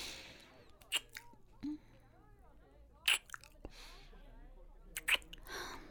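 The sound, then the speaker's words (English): Wet kissing sounds from a mouth: a few short, soft lip smacks and pops spaced apart, with faint breathy, moist sounds between them, quiet overall. “Hey, you ever kissed someone before? No? Okay then.”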